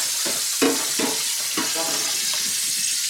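Clams frying in a very hot pan give off a steady, bright sizzle, broken by a few louder knocks and scrapes as the pan is stirred.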